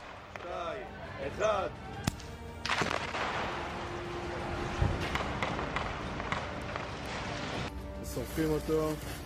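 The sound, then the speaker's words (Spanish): Explosives detonated on command after a countdown: a sharp blast swells into a long, loud, roaring rumble lasting several seconds, with voices heard briefly before and after it. “Al comando de operación, detonen después del conteo.”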